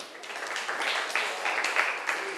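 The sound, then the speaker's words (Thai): Students applaud a classmate in a classroom: a few seconds of steady, moderately loud clapping with scattered louder claps and no clear break. “ขอบคุณมากเลยค่ะปรบมือให้เพื่อนหน่อย”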